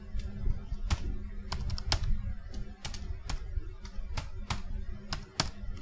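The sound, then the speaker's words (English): Typing on a computer keyboard with the shift key held down produces many quick, crisp key clicks in an uneven rhythm, fairly faint over steady low background noise. “I typed that all in caps, and not even like the quick way. I held down the shift key the whole time.”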